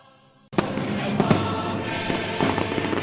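Fireworks and firecrackers explode for the Fogueres de San Juan festival in Alicante, a dense, loud crackling barrage that starts abruptly and continues, with several heavier bangs standing out.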